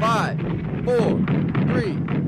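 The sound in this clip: Anti-aircraft flak fire bursts over a city during a bombing run in a B-17 bomber gunner video game, heard as a steady dense low roar broken by repeated heavy booming thumps.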